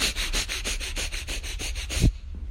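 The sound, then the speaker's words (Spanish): Fire breath breathing exercise: rapid, forceful breaths in and out through the nose make a fast, even train of loud, sharp sniffing bursts that stops abruptly near the end, with no talking. “Hay uno como es, se llama el fire breath, que empiezas a respirar rápidamente eh, por la nariz y, y exhalas rápidamente. Entonces lo haces”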